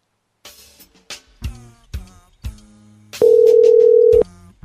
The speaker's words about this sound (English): Hello? Oh, shit. It's going to voicemail.